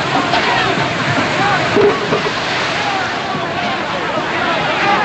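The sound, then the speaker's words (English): Water from a hose gushes over men on a ship deck as a sailor drenches them from an upper deck, a loud, steady rushing spray throughout, with voices over it. “A sailor drenches the men with a water hose from an upper deck, and a brawl breaks out.”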